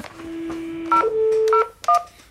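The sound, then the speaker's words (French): A telephone number is dialed again on a keypad: a steady low tone, then a few short, bright dialing beeps in quick succession, with no voices. “Allô? Allô? Le Parti Socialiste ne répond plus. Ouais, avant même les élections, il ne répond plus, c'est inquiétant. On va recommencer l'opération.”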